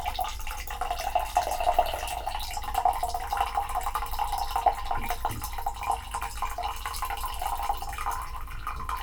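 Hot water is poured slowly, a little at a time, into a cup holding a tea bag. It makes a thin, steady trickling and splashing stream that stays quiet and continuous throughout, with no voices.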